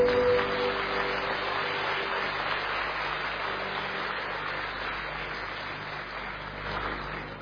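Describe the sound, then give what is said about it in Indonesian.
An audience applauds while rising to its feet, a dense, sustained wash of clapping that stays fairly steady and slowly fades a little toward the end, with a faint held tone early on. “kita sambut meriah, kita berdiri semua. Tepuk tangan untuk Achan Bramawangso.”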